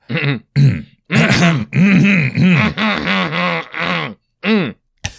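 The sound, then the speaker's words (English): Coughing in rapid succession: many rough, voiced hacking bursts and throat-clearing sounds, loud and close together, with short gaps and no words. “the coughing continues”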